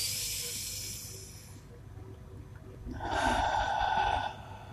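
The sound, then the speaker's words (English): Breathing during a guided relaxation exercise, drawing air in through the nose and pushing it out through the mouth: two long, airy, hissing breaths separated by a quieter pause, with no talking. “And then we breathe out. We exhale through our mouths. Inhale through our nose. Exhale through our mouths.”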